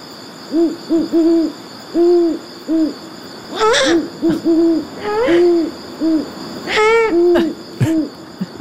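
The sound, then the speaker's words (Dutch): Great horned owl (Bubo virginianus), the American eagle-owl, hooting in a long series of deep, soft, evenly spaced hoots, broken by three louder, higher, raspy calls, with no voices. “dit is dus de Bubo virginianus of de Amerikaanse oehoe.”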